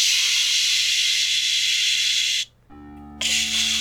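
A spray can hisses as paint is sprayed to mark a big X on a huge old tree. A loud, steady, even hiss cuts out briefly near the end, then resumes.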